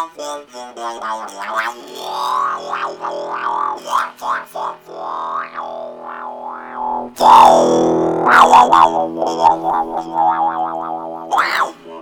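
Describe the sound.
A talk box voice effect shapes a loud, warbling, buzzy instrumental tone into vowel-like syllables, with wobbling pitch sweeps and a louder, harsher burst in the second half.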